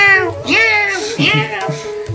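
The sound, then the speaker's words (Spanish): A person imitates a cat with a few drawn-out, gliding meows, voiced in a nasal, cat-like tone with clear harmonics, each rising and then falling in pitch, moderately loud. “creo que estoy haciendo como es el gatito acá, ¿viste?”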